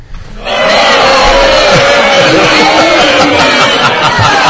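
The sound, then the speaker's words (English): A studio audience roars in protest, a loud, sustained wall of shouting voices that surges up within the first half second and stays at full volume. “You pissed off the studio audience.”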